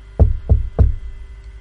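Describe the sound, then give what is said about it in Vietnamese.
Three loud knocks on a door, each a hollow, low thud evenly spaced and quickly fading, with no voices. “Sau đó lên trời gõ cửa lại.”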